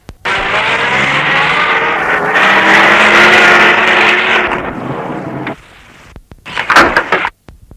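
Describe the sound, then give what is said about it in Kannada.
A jeep arrives with a loud, steady engine roar for about five seconds. The sound then drops away and is followed by a few short, sharp bursts of noise. “Jeep ಬಂತು, jeep ಬಂತು.”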